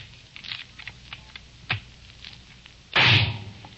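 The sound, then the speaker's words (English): A shotgun fired from eight feet gives a single sharp, loud report near the end, preceded by faint clicks and low rustling. “I will now fire the shotgun from a distance of 8 feet.”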